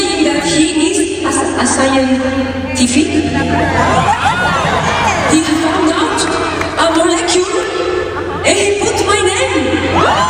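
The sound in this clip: A concert crowd in Boston cheering, whooping and chuckling as a voice speaks over the noise, loud and lively throughout with bursts of shouting.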